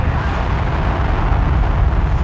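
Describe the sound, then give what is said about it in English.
Soyuz rocket liftoff: a loud, dense, unbroken roar with a heavy low rumble, steady from start to finish. “Liftoff of the Soyuz rocket transporting Mike Lopez Alegria, Mikhail Turin, and Anousheh Ansari to their microgravity home in space.”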